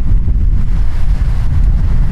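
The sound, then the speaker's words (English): Wind picking up outdoors during bird-watching, a loud continuous low rumble that buffets the microphone with slight gusting and no talk. “Feel that wind picking up already.”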